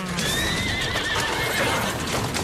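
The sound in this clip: A horse neighs with a wavering, high whinny over a continuous clatter of hooves as it pulls a carriage. The hoofbeats and whinny are loud and fill the whole short clip, with no voices.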